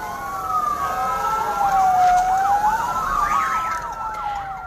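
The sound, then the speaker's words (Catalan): Ambulance sirens from vehicles carrying seriously wounded Palestinians from damaged Gaza hospitals to Egyptian medical centres. A wailing siren slowly rises and falls, then switches to faster overlapping yelps, moderately loud and continuous with no voices. “És el so de les ambulàncies que han traslladat 188 palestins ferits de gravetat dels malmesos hospitals de Gaza a centres sanitaris egipcis.”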